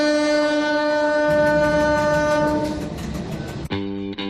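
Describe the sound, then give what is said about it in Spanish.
Train horn and rolling rail noise from the Guadarrama alpine mountain railway: a long, steady horn blast over rumbling, clicking wheels, then a second, shorter horn note near the end, loud and without voices. “El tren alpino del Guadarrama dice adiós, cierra por obras y su último trayecto con viajeros será este domingo 5 de mayo.”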